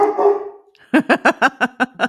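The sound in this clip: An eight-year-old female dog barks in a quick burst of seven sharp, evenly spaced barks. They are loud and clear, with no talk over them.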